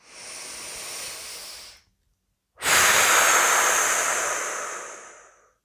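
Slow guided breathing during a relaxation exercise: a soft, airy breath, a short silent pause, then a longer, louder hissing exhale that gradually tapers away.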